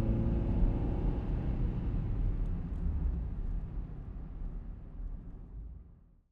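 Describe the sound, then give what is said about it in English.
A car engine gives a deep, steady rumble that stays at an even level for several seconds, then gradually fades away to silence at the end. “I pressed down on the gas”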